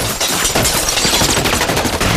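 Submachine gun fire from two guns pushed out of car windows, with bullets striking inside a house: a loud, dense, unbroken burst of rapid shots and impacts.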